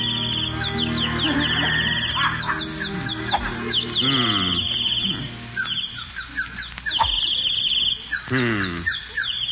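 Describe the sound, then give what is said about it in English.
Birds sing on a golf course, with many loud, repeated chirps and twitters that sweep up and down in pitch and run on continuously. “Darn those birds. I wish they'd stop singing. They're throwing me off my game.”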